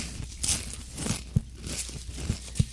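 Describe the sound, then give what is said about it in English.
Crunching of Blaze Doritos tortilla chips as they are chewed: a few sharp, crisp crunches at irregular intervals, fairly faint, with no talking. “Trying out some of these Blaze Doritos.”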